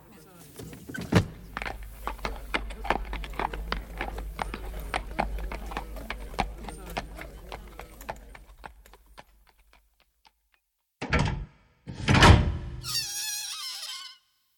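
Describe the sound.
Horse hooves clip-clop steadily as a horse-drawn cab moves along Baker Street, with a low rumble of wheels underneath. After about ten seconds the hoofbeats stop, and a few short, louder bursts follow.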